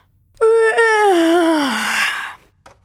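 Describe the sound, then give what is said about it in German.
A drawn-out voiced yawn from a tired character, a single long groaning tone lasting about two seconds whose pitch slides steadily downward before trailing off, loud and alone with no other talk. “Wenn ihr müde seid, müsst ihr dann auch so gähnen wie ich?”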